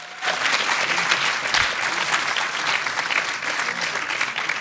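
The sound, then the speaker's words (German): Audience applause for a performer after a stage performance, a sustained, dense wash of clapping that stays at an even, full level from start to finish. “gebt ihm nochmal Applaus dafür”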